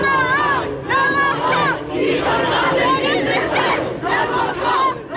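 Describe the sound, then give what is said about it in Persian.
A crowd of student climate protesters in London chanting and shouting loudly together, with rhythmic vocal chants rising over general crowd noise. “صدای دانش آموزان معترض در لندن”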